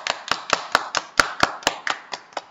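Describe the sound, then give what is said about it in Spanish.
Applause for children's correct answers to a riddle on a radio quiz segment: a quick, evenly spaced run of sharp claps, about a dozen in under three seconds, with no talk. “Vamos a darle un fuerte aplauso.”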